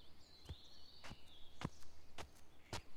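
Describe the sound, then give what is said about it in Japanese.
Footsteps of a woman walking: five even, crisp steps at a steady, unhurried pace, each a soft short thud, with a faint high whistling tone drifting in the background. “向こうから歩いてきた女性と目が合った。”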